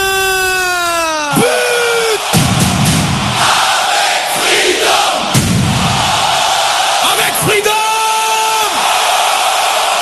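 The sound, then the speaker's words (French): Football supporters cheering in a stadium during a match, a loud, sustained roar of shouting voices with long held horn-like tones rising above the crowd near the start and again near the end. “Ils essayent de mettre un peu de jus et de rythme dans ce terrain, parce que ici il n'y a que le COP de JS Saint-Piroise qui fait du bruit.”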